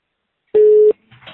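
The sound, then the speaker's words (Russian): A single loud, steady telephone tone lasts about a third of a second as a number is redialed, followed by faint, muffled sound. “Да, набираю снова.”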